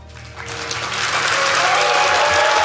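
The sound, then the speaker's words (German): Thunderous applause from a theater audience as a stage curtain closes, the clapping swelling from a softer start into a dense, loud, continuous roar. “Als sich der Vorhang schließt, gibt es donnernden Applaus. Alle klatschen wie wild.”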